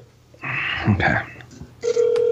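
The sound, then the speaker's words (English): A telephone call is placed, with mixed dialing sounds and voices followed by a steady, even ringing tone that holds to the end. “Okay. Come on. Answer the phone. Answer the phone.”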